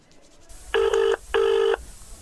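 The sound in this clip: A telephone rings after a number is dialled, giving two bright, buzzing ring bursts of equal length separated by a short pause, loud against a quiet background.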